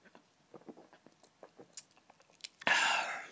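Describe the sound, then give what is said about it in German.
A sip from a drink: a few soft mouth clicks and smacks, then a sudden loud, breathy rush of sound that carries on to the end. “Kurz meinen Schluck nehmen.”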